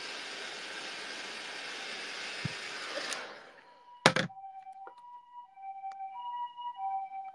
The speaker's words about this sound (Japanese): あ、すごい、救急車。